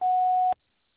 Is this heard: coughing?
no